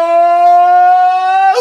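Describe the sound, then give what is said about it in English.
A siren-like sound effect holds a steady, bright, buzzy tone for about a second and a half, then its pitch drops sharply and it fades quickly at the end. “I kind of had the siren effect going and then the soft fade out at the end.”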